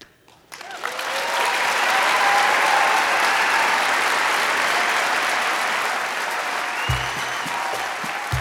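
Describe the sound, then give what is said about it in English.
Standing ovation from an audience of about 1,200 people in Anchorage: dense, steady clapping that builds quickly after a quiet start and stays loud for several seconds. “Carol Sepulu received a standing ovation from the audience in Anchorage that night. 1,200 people literally jumped to their feet.”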